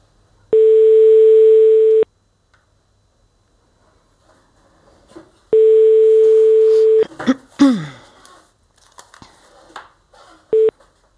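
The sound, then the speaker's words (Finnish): Ringing tone of a telephone call placed to Paris, France: two long, steady ring tones separated by a silent gap. A voice then starts speaking, followed by a brief final tone. “seuraavaksi otetaan puhelu Pariisiin ihan vertailun vuoksi.”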